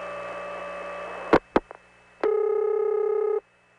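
Telephone exchange noise on a long-distance trunk as the Fulton switch dials out: a steady harmonic hum, then a few sharp clicks, and a louder buzzing tone that holds for about a second before cutting off abruptly.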